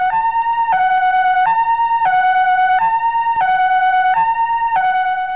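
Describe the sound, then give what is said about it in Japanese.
An ambulance siren wails in a two-tone pattern, alternating between a higher and a lower pitch about every 0.7 seconds, loud and steady with no voices. “あ、この音は救急車なのだ。”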